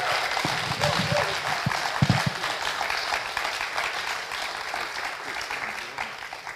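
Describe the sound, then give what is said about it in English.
An audience applauds as two guests come onto a stage for an interview. Dense, sustained clapping fills the whole stretch, with a few louder individual claps standing out early on. “can I invite you to put your hands together and welcome Pete and Justine as they come up”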